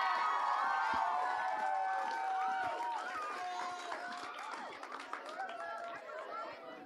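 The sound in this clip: A crowd cheers and whoops as a wife is welcomed onto the stage at a live evening event; dense, overlapping shouts and calls, loudest at first and easing somewhat while the excitement continues.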